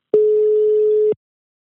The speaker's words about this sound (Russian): давай звонить. Все, я звоню.